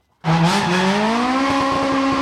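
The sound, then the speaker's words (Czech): A rally car's engine roars on a town-centre special stage of the Barum Rally in Zlín. It bursts in abruptly from silence and stays loud while its pitch climbs steadily as it accelerates. “první jezdci už se vydali na trať městské rychlostní zkoušky, která v centru Zlína otevírá letošní Barum Rally”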